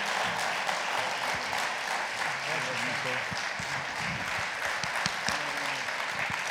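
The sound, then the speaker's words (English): Church audience applause welcoming a guest speaker to the platform. Continuous, fairly soft clapping runs throughout, with voices audible over it. “What a wonderful, wonderful honor it is to welcome to the platform Warren Beery. Come on, let's give it up, guys. Let's give it up.”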